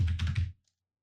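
A search is typed on a computer keyboard: a quick, dense run of soft keystrokes for about half a second, then silence.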